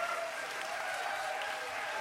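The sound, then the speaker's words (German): Faint, steady audience applause for an antifascist hardcore band, a dense continuous patter of many hands with no break or swell, and a couple of thin sustained tones running through it. “Bitte einen riesen Applaus für den antifaschistischen Hardcore.”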